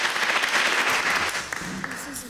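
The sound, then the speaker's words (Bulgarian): Audience applause at a ceremony honouring a writer: dense, steady clapping from a crowd that tapers slightly toward the end. “Благодарим. Аплодисменти. Благодарим.”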